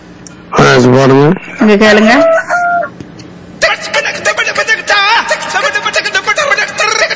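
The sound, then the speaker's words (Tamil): A rooster crows in two long, harsh, strained calls, followed by people talking. “இதத்தான் சொன்னேன். அதான் அங்க கோழி கூவுது உங்களுடைய கோழி”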